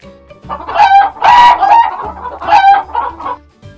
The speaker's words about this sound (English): Rooster.